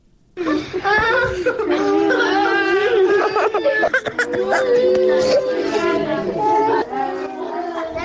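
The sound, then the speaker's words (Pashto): Children displaced to Kabul by war scream and cry: loud, continuous wailing and sobbing from several voices, with cries rising and breaking throughout. “د جګړو له امله کابل ته د کډوالو شویو وګو ماشومانو چغې او فریادونه.”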